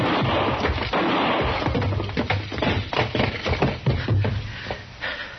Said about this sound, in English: Don't shoot again, Chester.